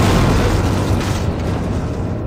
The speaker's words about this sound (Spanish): Se lo han cargado al Carrero Blanco. Esa bomba también me ha matado a mí.